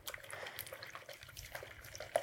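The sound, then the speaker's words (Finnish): Whisking by hand with a whisk, faint rapid wet swishing strokes that run continuously with a light liquid quality. “Mä taidan jatkaa pikkasen vispilällä.”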